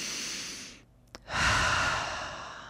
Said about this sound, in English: Let your head relax. Come back. Deep breath.